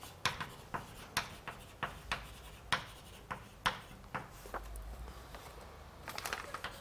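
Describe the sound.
A lecturer writes out a math formula about an inner maximum by hand during a lecture. Faint strokes tap and scratch in a quick, uneven rhythm of many short marks, with a soft rubbing sound between them.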